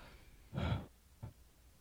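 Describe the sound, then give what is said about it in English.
A shallow breath drawn through the mouth into the upper chest during a breathing exercise for anxiety. One soft, airy breath swells and fades over a moment, followed by a much briefer, fainter puff of air. “take a breath through the chest. So the top part of the hand that's on the chest, make that rise first and breathe through your mouth.”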